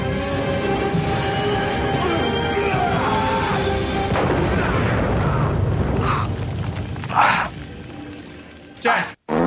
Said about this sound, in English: Oh, it was a dirty bomb. It's hilarious when the bomb goes off.